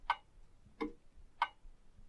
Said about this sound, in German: Eine große, dicke, fette Uhr an der Wand, von der ich die Uhrzeit ablesen kann.